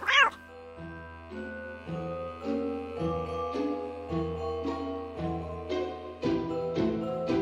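A cat meows over and over in drawn-out, tonal calls, roughly one a second. The calls are fairly loud and carry on without a break.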